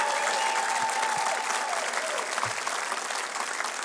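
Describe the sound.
Audience applause welcoming the country vocal group the Oak Ridge Boys: a steady, dense wash of clapping that holds at an even level throughout.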